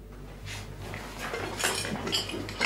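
Dishes and cutlery clink and rattle as lunch baskets are packed before a hunt, with a few light, scattered clinks over a faint low hum and no talking.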